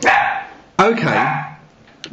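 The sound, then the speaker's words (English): A puppy barks in a few sharp, harmonic yelping bursts: two strong barks and a brief fainter yip at the end, with short gaps between them. “Okay, the dog has now been silenced.”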